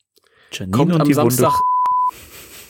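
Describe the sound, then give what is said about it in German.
A single steady, high-pitched censor beep bleeps out a word. It follows a short stretch of talk, overlaps the last of it and holds for about half a second before cutting off. “Ich piep das wieder weg.”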